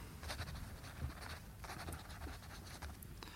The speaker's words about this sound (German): Na los, los, kommen Sie, unterschreiben Sie schon.